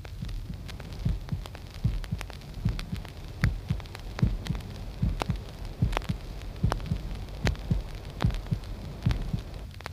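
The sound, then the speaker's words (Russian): Heartbeat with a normal rhythm: many evenly spaced, low, dull thumps repeat steadily over a soft continuous hum, with no voices. “Прослушайте для лучшей ориентировки звуковые явления при нормальном ритме сердца.”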